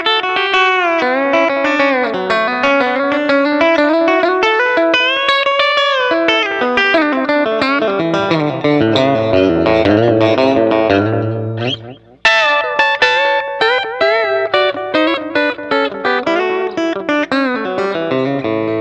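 Electric guitar licks full of string bends, played with a processed, effects-laden tone: a dense, continuous run of notes with bent pitches sliding up and down, a brief dip near the end, then quick phrases resuming.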